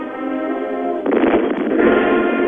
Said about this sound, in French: Et comme s'il fallait donner un peu de rythme encore à la musique, un canon tonne à deux pas de la fanfare qui joue les hymnes nationaux.